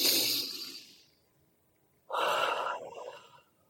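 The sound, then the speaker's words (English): Deep breaths during a guided relaxation exercise: one long airy breath that fades out, a pause of near silence, then a second breath that starts abruptly and trails off, with no talk. “close your eyes and take a few deep breaths with me. One more.”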